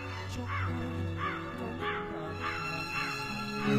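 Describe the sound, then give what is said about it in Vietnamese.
A black crow flying up and cawing mournfully: a quick, evenly spaced series of harsh, hoarse caws, fairly faint over a steady low drone. “một cánh quạ đen bay vọt lên, kêu lên những tiếng thê thiết”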